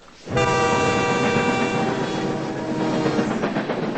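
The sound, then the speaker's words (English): A train speeds down the tracks outdoors in a loud, sustained rushing roar with a steady tonal whine. The roar starts abruptly and holds at full strength throughout. “Outside, a train speeds down tracks.”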